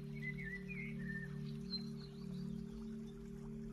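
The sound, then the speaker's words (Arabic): Small birds chirp faintly in the morning beside a lawn and a rose garden, with thin, high calls near the start and middle over a steady low hum. “نسمع صوت العصافير هم عم يبدوا اليوم الجديد”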